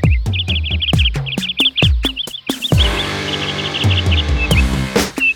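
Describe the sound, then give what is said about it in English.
Birds chirp in rapid, high-pitched bursts of short tweets, repeated throughout and interleaved with sharp loud clicks and knocks, ending in a denser wash of chirping. “Wow, look at all the pretty birds.”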